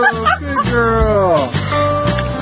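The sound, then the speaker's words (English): A person imitates a dog's barking while coaxing a dog through tricks, giving a few voiced, yipping woofs with a clear harmonic tone at a fairly steady, loud level. “Like, I actually have to bark?”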